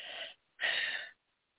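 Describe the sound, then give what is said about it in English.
One person breathing, heard as two soft breathy bursts separated by a short gap, the second longer than the first, with no other sound. “Let's take a little breath.”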